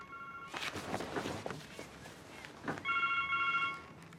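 A mobile phone rings in a film scene, a steady electronic ringtone of bright, sustained tones in the final second, after a stretch of rustling and muffled knocks.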